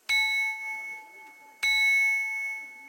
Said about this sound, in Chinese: 我们刚刚敲击那碗的有钟声，这个碗还会唱歌的。